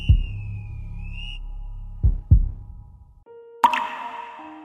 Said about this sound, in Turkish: Mən bir tamçı su. Mən mu bir tamçı su?